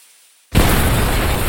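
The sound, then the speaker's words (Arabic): Barrels of gunpowder explode aboard a wooden ship, a sudden loud blast about half a second in that turns into a sustained, dense roar. “شعل الفتيل وتفرج على البومبي وهي تختفي في نيران انفجار البارود والخشب.”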